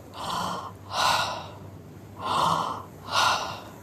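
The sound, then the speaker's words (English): Deep belly breathing in two slow inhale-exhale cycles, four broad, airy swells of breath, each rising and fading smoothly with short gaps between them and no talking. “Draw the breath in through the belly into the hand. Feel the hand rise first and then let the exhale go. Don't push it. Let it fall out of you.”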